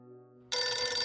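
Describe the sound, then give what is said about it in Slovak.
Telephone bell ringing at a police station. After a brief quiet hum, a loud, bright, continuous ring starts abruptly and holds steady to the end. “O 3 dní neskôr zazvoní na policajnej stanici telefón.”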